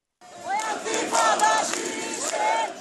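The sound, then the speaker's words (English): A crowd of Palestinians at the funeral of a 16-year-old boy chants in unison, many voices raised loudly in a call for uprising throughout the short burst. “At today's funeral of 16-year-old Mohammed Abu Khader, some Palestinians cheered, rise up, Intifada, a call for an uprising.”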